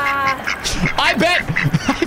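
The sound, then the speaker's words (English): Ducks quacking while mating give a few harsh, nasal calls in quick succession, fairly loud and rough-edged, each call short and strongly harmonic. “I bet you woke up this morning not thinking that you were going to hear the sweet, harmonious sounds of ducks mating.”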